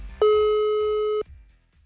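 A telephone ringback tone sounds while a call is being dialed: one steady, pure electronic tone lasting about a second, stopping abruptly and leaving near silence.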